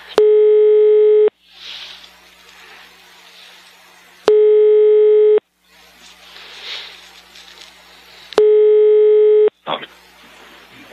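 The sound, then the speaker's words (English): A telephone connecting tone on a call placed to Sweden: three long, steady electronic tones about a second each, separated by pauses with faint hiss and line noise. “You will soon be connected to a random Swede somewhere in Sweden. This call may be recorded.”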